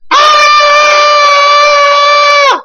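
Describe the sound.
A voice imitates people screaming: one loud, sustained high-pitched scream with a steady pitch that holds for about two and a half seconds, then dips and cuts off.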